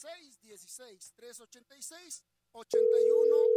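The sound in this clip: A telephone tone sounds on a call to an insurance contact that fails to connect: a steady, unbroken mid-pitched tone starts after a stretch of talk and runs to the end.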